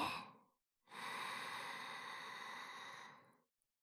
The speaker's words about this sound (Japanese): それからゆっくり深呼吸して。そうそう、吸って、